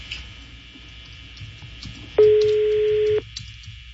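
While a caller dials a phone number, one steady electronic telephone tone sounds loudly for about a second and then cuts off sharply, over a faint background hum.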